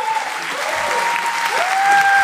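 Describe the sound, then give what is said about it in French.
Audience applause at a live quiz game in front of a public, a loud, dense wash of many hands clapping that holds steady throughout. “on applaudit Simon.”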